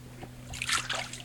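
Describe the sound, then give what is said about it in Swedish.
Water is poured over a patient sitting on a bench set across a stream, giving a brief, faint burst of splashing and trickling over a steady low hum. “Och så tar jag vatten då.”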